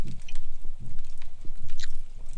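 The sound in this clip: Soft, rhythmic wet chewing and mouth sounds as someone tastes a candy cane during a holiday taste test. Low bursts come in a steady run with no talk.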